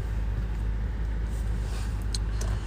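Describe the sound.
A security car drives around nearby, its engine a steady low rumble that holds even throughout, with a faint hiss above and no talk.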